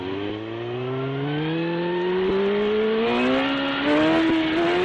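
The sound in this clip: A car engine accelerates hard while speeding at about 100 km/h. It is a loud, continuous drone whose pitch climbs steadily throughout, with no talk.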